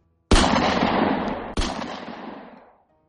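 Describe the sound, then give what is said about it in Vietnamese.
Two loud handgun shots in an abandoned container yard, about a second and a quarter apart. Each is a sharp blast followed by a long, rumbling decay, with no voices. “Tiếng súng nổ vang lên chát chúa giữa bãi container bỏ hoang.”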